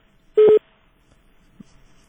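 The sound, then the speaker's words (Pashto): A single short electronic beep sounds as a telephone call cuts off. It is a brief steady tone, followed by near silence. “آزادی رادیو د دې ټلیفون هم قطع شو.”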